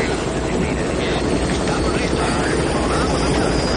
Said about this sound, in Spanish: Los agentes del helicóptero se preparan para despegar.